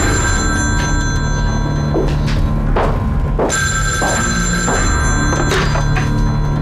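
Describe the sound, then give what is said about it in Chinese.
Telephone bell ringing in repeated bursts, a bright, steady electronic ring with sharp harmonic tones, loud and alone over a low background hum, with a few soft thumps between rings. “抱歉，我接个电话。”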